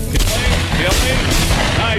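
A gunshot is fired at a white wild turkey gobbler during a turkey hunt, a loud, booming report over a dense, noisy background.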